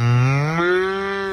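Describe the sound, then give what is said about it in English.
A child imitates a cow's moo while interviewing a cow in a field: one sustained, low, buzzing, harmonic moo lasting over a second, fairly loud and steady, with a slight upward shift before it ends. “a child is in a field with a microphone interviewing a cow and going moo”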